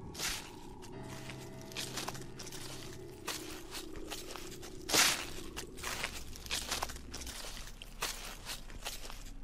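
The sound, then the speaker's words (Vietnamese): Footsteps crunch on dry leaves in a series of soft, faint crackling steps, with a low, steady hum underneath. “hắn xác định chính là tiếng bước chân dẫm lên lá khô.”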